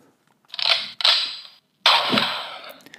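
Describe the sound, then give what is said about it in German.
Toy gun sound effect set off by pressing its button: three hissy, crackling bursts of noise, the last one longest, separated by brief gaps, with no talk. “gib mir mal, guck mal, drück mal auf die Waffe.”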